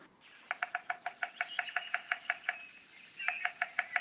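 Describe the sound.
Rapid knocking of a bearded woodpecker drumming to communicate: a fast, even train of sharp, hollow raps, a brief pause, then a shorter burst of the same knocks, with no voices.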